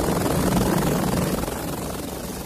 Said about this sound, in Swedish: Det är ju ett UFO, ett flygande tefat, eller, nej, det är ingen fat, det är en helikopter.